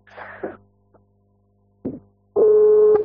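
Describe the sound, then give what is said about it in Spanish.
A telephone call tone sounds as a caller rings again on a mobile phone with a low battery. A steady tone lasts about half a second near the end, after a few brief, soft rustling noises. “Estoy llamando a Di Vincenzi de nuevo. A ver si me atiende.”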